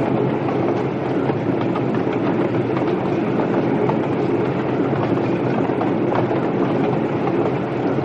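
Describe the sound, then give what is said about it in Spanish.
A passenger train travels through open countryside, heard from inside a carriage. A continuous loud rumble mixes with rhythmic wheel clatter at an even pace, with no talking. “El tren atraviesa la campiña.”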